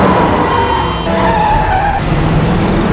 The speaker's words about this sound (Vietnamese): anh ta cắn môi rồi quyết định lái xe theo hướng khác.